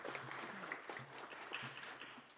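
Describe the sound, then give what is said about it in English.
Faint, steady applause as an audience claps for themselves at the close of an event, a dense even patter of many hands that holds at a low level throughout. “so can you clap for yourselves that you have come to the end unscathed but feeling better? I want to thank you for that, so please clap for yourselves.”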